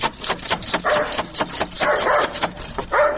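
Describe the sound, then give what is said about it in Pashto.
A dog barks at a house while someone waits at the door, a quick run of many sharp, fairly loud barks with short gaps between them and no talk. “دا څه بد سپی لري، ودرېږه چې بیا دروازه ور وټکوم.”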